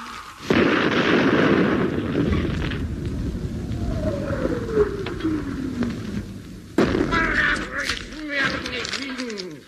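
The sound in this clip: Cannon firing after its fuse is lit: two sudden, loud booming blasts, each trailing into a long rumble, with voices and gliding vocal tones over them.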